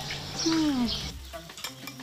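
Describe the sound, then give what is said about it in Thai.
A mud crab stir-fried with curry powder is stirred in the pan. Short scraping strokes of the utensil come over a soft, crackling sizzle, loud at first and then thinning into scattered light clinks. “เนื่องจากปูจั่วเป็นปูที่มีเนื้อเยอะและหวานมันจึงเข้ากันได้ดีเมื่อนำมาผัดผงกะหรี่ค่ะ ผัดปูนี่กับปูที่เขาต้มเหมือนกันแล้วนะ”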